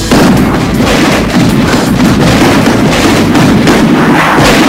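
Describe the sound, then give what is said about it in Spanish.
Firecracker bombs thrown from the stands of a football stadium: a dense, very loud barrage of overlapping bangs and booms, continuous, with no clear gaps between blasts. “Las bombas provienen de allá, de aquel sector donde hay una bandera de callejeros de River que está tirando bombas.”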